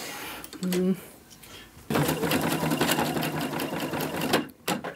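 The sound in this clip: Sewing machine stitching through film and running unevenly: a short whirring burst and a pause, then a long, rapid, rattling stitching run that stops abruptly, followed by one brief final burst.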